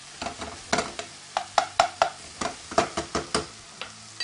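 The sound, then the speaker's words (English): A spoon scrapes and knocks against a pan as food is flipped, with a light sizzle of frying underneath. Many short, sharp contacts come in an uneven, fairly quick rhythm, and no one talks. “Using our spoon, we're going to flip it one more time.”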